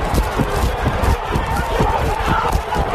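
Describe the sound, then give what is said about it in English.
Footsteps of someone running fast, a rapid, rhythmic series of thudding strides with a slight hitch in the gait, heard over background crowd noise. “You hear the steps, and it seems like there's a little hitch in the get along. So if you listen to the rhythmic beats of the run, yeah, just a little bit of a hitch in the get along.”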